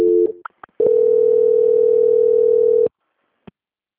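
Telephone line tone during a call transfer at a bank: a brief two-pitch beep and a few clicks, then a steady tone lasting about two seconds, followed by a faint click.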